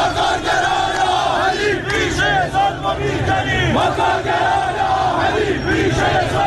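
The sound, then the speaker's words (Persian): Striking workers of Iran's National Steel Industrial Group chant a protest slogan, a loud crowd shouting in rhythmic unison with rising and falling voices throughout. “اونها شعارهایی هم دادن که مثلا یکیش رو الان میشنویم.”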